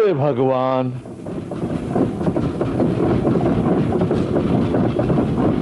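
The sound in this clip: Train passing through a railway station, heard as a continuous rumbling, clattering roar that follows a short tonal sound at the start.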